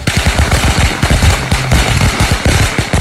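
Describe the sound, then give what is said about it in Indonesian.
Firecrackers set off at midday make a loud, rapid, continuous crackle of many sharp bangs that runs without pause for the whole stretch. “Sopo ta iki awan-awan kok nyumet mercon, gak merebeki tenan, gak suaranya cedok banget ki.”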